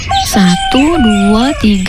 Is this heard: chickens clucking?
yes